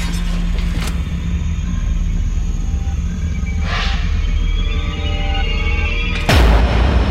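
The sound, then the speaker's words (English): Explosions as pressurised liquids, boiling after their cooling fails, are set off by a spark. A constant heavy rumble carries a few hissing bursts, and a deep, loud boom comes near the end. “It only takes one small spark, and the new world echoes with explosions.”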